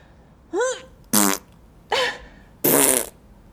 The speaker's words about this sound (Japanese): 屁止まんないよ。屁出ちゃう。ケツの穴ゆるゆるすぎて屁が止まんないよ